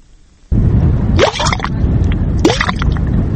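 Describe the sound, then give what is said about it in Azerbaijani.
A mud volcano at Dashgil on the Absheron peninsula, Azerbaijan, bubbles with a loud, thick gurgling that starts abruptly. Two distinct gloopy bursts rise out of the continuous churning rumble. “Daşkil Palçıq vulkanı yerin 15-20 kilometrlik qatından qaynayıb gəlir.”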